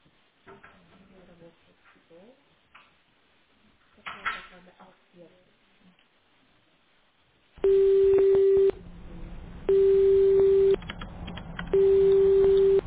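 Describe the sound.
Telephone ringback tone as a call connects: three steady, mid-pitched tone bursts of about a second each, evenly spaced, following a long stretch of talk.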